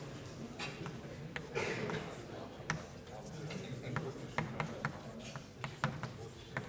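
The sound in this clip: Letters K being written on a board during a lecture: a steady run of short, crisp taps and strokes, faint and irregular, over a quiet, low-level background.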